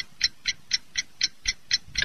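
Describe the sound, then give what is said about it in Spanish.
Bird-like chirping played as a radio time signal for a watch and jewelry shop: eight short, bright, evenly spaced pulses at about four per second, steady and mechanical, with nothing else around them. “La relojería y joyería Omega, de 1 Sur 9 y 10 Oriente, la cuadra donde canta el pajarito, le indica la hora”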